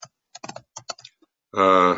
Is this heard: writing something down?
yes